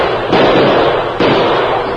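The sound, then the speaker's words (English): Gunshots in a radio western scene where a gun is shot out of a hand: two loud sharp bangs about a second apart, each followed by a noisy sustained wash, with no talk over them. “Say, did you see that? The masked man shot the gun out of Pokey's hand.”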